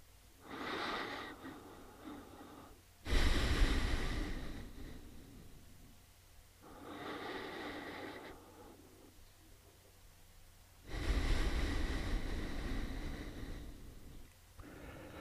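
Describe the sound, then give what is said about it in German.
Slow, deep breathing in and out during a guided meditation: four long, airy breaths, each lasting a couple of seconds, separated by quiet pauses, with no voice over them. “Und jetzt atme einige Male sanft und tief und ruhig ein und aus.”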